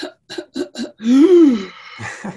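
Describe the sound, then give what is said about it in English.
A voice imitates a whooping cough from pertussis, giving four quick, sharp coughs and then a long, loud whooping intake of breath that rises and then falls in pitch, ending with a brief further sound. “the P or pertussis, whooping cough, that's also something they occasionally see, and you're probably more familiar with that because they have that whooping sound, they go,”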